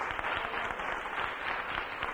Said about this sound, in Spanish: Dele un aplauso al Señor en esta noche preciosa.